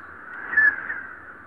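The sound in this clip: A crow caws in a harsh, sustained call that stays fairly steady, with no voices around it.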